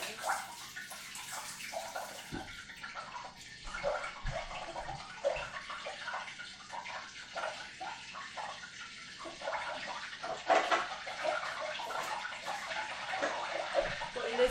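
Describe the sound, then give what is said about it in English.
Hot oil bubbles aggressively while deep-frying flour-coated food, making a steady, dense crackling hiss with many small pops throughout and a few louder bursts of sizzling. “aggressively bubbling. I don't know if you can hear that. I think that it scares me how much it's bubbling.”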